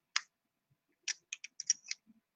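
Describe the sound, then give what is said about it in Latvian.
Sharp, faint plastic clicks as a pod for a Lost Vape Lyra pod vape snaps into its locking mechanism: a single click, a pause, then a quick run of several more. “tas mehanizms, ar ko viņi vienkārši iestum iekšā, viņš smuki ieklikšķ”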